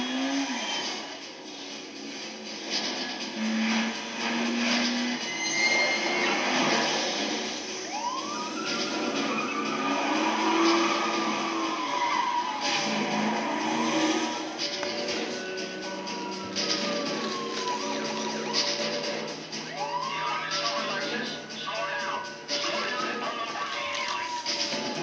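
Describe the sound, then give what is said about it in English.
Police sirens and engine noise come from a car chase in the video game Need for Speed III: Hot Pursuit. Siren wails rise and fall several times over a constant mechanical drone of traffic. “Should sound like Need for Speed for a second. What was it? Hot Pursuit? Need for Speed 3, Hot Pursuit? Highway Patrol, stop your car.”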